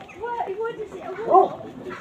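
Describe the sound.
A dog barks at a passerby on an island in the river Thames, one short, sharp bark standing out near the middle amid lower, murmuring sounds.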